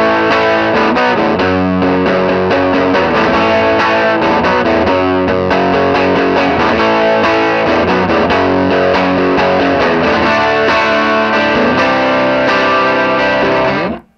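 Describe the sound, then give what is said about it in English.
Fuzz-distorted Telecaster electric guitar plays dense, loud and continuous, with a saturated buzzing tone and steady strummed attacks for about fourteen seconds before cutting off abruptly. “it has this really cool sound. But especially paired with the fuzz on the I Love LA, that has a really good fuzz tone with that telly.”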